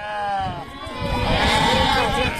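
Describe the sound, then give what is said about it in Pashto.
Flock of about 300 sheep belonging to nomadic herders, hungry during a drought, bleating in many overlapping wavering calls that run continuously and loudly throughout. “دې راپور ته چې د یوې رمې په غږ پیلېږي”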